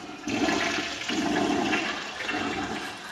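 A toilet flushes with a loud, steady rush and gurgle of water that runs for about three seconds, with no talking over it.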